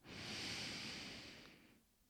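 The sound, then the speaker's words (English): A slow, deep breath drawn in through the nose, a soft, steady airy hiss that swells and then fades over about two seconds. It is heard alone. “I would love to invite you, beautiful soul, to take a breath with me right now.”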